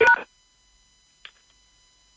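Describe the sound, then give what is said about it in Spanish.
A single short telephone keypad tone sounds alone at the start, followed by near silence with one faint, brief blip. “Por favor, deje un mensaje después del tono. Silencio. Y presione numeral para más opciones.”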